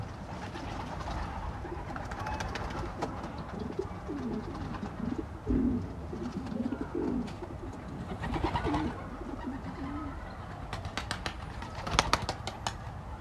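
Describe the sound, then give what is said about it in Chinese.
Recorded pigeons cooing, sampled at the opening of a song. Low, soft coos repeat many times in a rolling rhythm over a steady background hiss. “然后其实它一开始就是鸽子叫声的一个采样”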